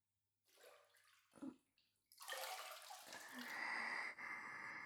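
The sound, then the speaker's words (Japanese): Hot water is poured over a bather's shoulders in a bath, a faint splashing and hissing rush that comes in a few short bursts before swelling into a steadier stream of pouring water. “肩、寒いので、お湯かけてください。”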